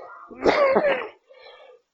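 A single harsh cough from a lecturer, followed after a short gap by a fainter, briefer throat sound, with no talk around it.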